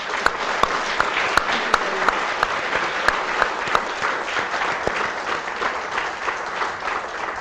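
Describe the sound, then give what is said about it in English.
Applause from an audience welcoming an ambassador at an LSC event: dense, steady clapping throughout, with a few sharper individual claps standing out early on. “put your hands together and give the ambassador a warm LSC welcome”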